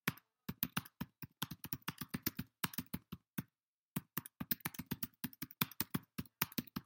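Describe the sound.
Rapid typing on a computer keyboard: many crisp key clicks in uneven bursts, with one short pause midway before the tapping resumes at a quick pace.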